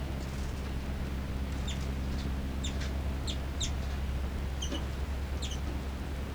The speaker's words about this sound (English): Chitter by both birds. Calls by 3-3, then 5-9 response.